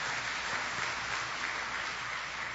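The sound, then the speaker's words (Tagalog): A church audience applauds the Lord with continuous, dense clapping that stays at an even, fairly loud level throughout. “Pwede bang palakpakan natin ang Panginoon, mga kapatid?”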